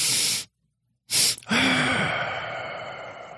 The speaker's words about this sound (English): So it's a double inhale, and typically the first inhale is longer than the second, but the second one is still important to do. And then a very long extended exhale.